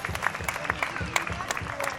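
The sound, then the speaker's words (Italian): Audience applause greeting a newly introduced guest, a continuous patter of many hands at moderate, even loudness with a few sharper claps standing out. “Un applauso.”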